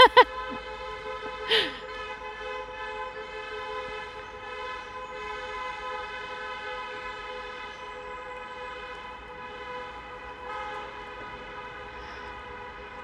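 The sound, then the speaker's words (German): Car horns honk from a passing wedding convoy: a steady, droning horn tone holds for many seconds at moderate level, preceded by a few sharp short bursts at the start. “da hupt jetzt gerade eine Hochzeit, herzlichen Glückwunsch”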